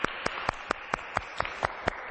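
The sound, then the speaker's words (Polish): Applause for a team after a group presentation: evenly spaced claps in a steady rhythm, fairly faint and clear. “Brawa dla zespołu.”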